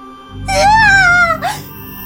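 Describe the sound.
A girl screams in a Chinese horror audio drama set around a coffin shop: one loud, sustained, wavering wail that sags slightly in pitch, followed by a short second cry.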